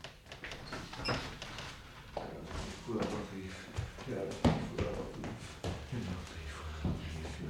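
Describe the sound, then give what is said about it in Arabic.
A door is shut in an Egyptian radio drama of the Thousand and One Nights, a few knocks and thuds mixed with shuffling footsteps, with voices heard alongside. “مولاتي اقفل ورانا الباب.”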